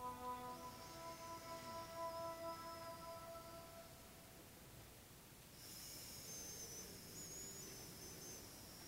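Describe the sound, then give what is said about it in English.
Long, slow, deep breathing through the left nostril while the right nostril is held closed, heard as a soft, airy hiss that swells and eases over a faint, steady tonal hum. “right nostril closed right below the cartilage, and then you're going to just breathe in and out, long, slow, deep breaths through the left nostril.”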